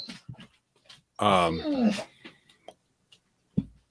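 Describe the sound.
Dog whining in a high-pitched cry that slides downward over under a second, with a few faint short whimpers before it and a brief low sound at the end.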